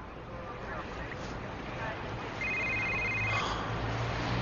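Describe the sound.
A telephone rings once, a brief electronic trill that is fairly faint over a steady background hiss and low rumble.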